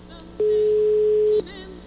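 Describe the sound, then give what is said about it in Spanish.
A telephone gives a ringback tone during a call: one flat, steady beep lasting about a second, between stretches of quiet line noise. “Ahí está dando tono”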